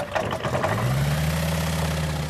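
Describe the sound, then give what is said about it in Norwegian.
Aircraft engine idling at Hamar airport before takeoff on an airborne archaeology survey, a steady, loud, low mechanical drone whose pitch settles into a constant hum after a brief early shift, with no talk. “alt er klart til å lette fra Hamar flyplass.”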